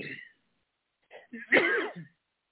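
Someone clears a dry throat with a cough: a short rasp at the start, then, after a pause, a longer and louder throaty burst.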